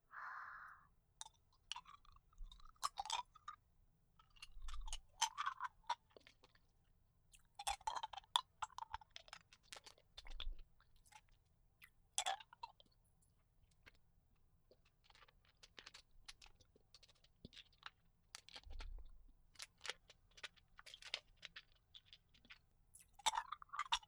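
Hard candy is chewed and crunched, with many quiet, irregular crisp cracks and bites spread over a long stretch, some clustered in quick bursts, and a soft low thump now and then.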